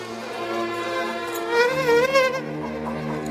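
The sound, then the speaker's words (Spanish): A fly buzzes as a man shoos it away, a steady, loud droning tone whose pitch wavers and swells midway before settling again. No speech is heard. “espanta una mosca”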